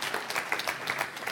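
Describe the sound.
Applause from a church audience at Mars Hill during a Sunday service: dense, even clapping that holds steady and moderately loud through the whole short stretch, with no voices.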